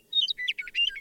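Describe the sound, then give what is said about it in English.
Meadowlark song at normal speed: a brief burst of bright, high-pitched chirps and warbling whistled notes in quick succession, loud and clear over a quiet background. “Starting with a meadow lark, normal speed sounds like this.”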